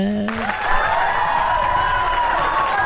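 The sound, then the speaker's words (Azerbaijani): Applause and cheering for a quiz show contestant who has just won, rising after a brief tone and continuing as a steady wash of clapping mixed with musical tones. “Alqışlar!”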